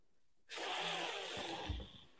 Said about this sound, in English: I can hear the breaths.